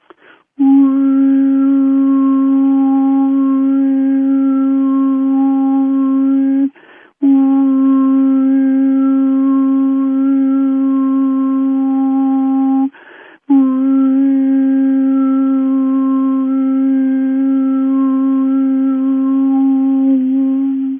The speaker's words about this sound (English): Those are the harmonics that are naturally in my voice already. I'm simply making them louder by getting the tongue just the right distance between the tongue and the roof of the mouth.